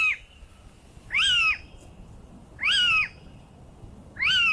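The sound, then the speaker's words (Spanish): A little owl, a nocturnal bird, calls three times at an even interval of about one and a half seconds. Each loud, shrill, mewing note rises and then falls in pitch, with quiet between calls. “Este diría que es el mochuelo, ¿no? Es el mochuelo, muy bien, ¿eh? Es como si se lo sabe. Este es un ave nocturna.”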